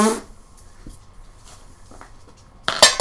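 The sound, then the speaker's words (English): A die thrown into a jar: after a near-quiet stretch with faint background noise, a sharp, bright clatter and rattle arrives near the end. “And he's already thrown his first die into the jar.”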